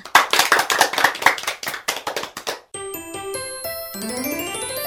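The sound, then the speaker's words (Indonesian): Applause for children who have just sung a song in a preschool music lesson: quick, uneven clapping from several hands for nearly three seconds, followed by bright chiming tones with a rising sweep. “Tepuk tangan untuk semua.”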